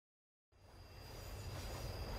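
Steady rumble of metro train wheels on the rails, with a thin high whine, starts abruptly after half a second of silence and slowly swells louder.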